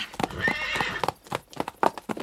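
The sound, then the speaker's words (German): A wild mare ridden bareback across the open Hungarian steppe lets out a high, shrill whinny, followed by a quick, uneven run of clip-clopping hoofbeats. “Auf einem Wildpferd ohne Sattel durch die Pusta.”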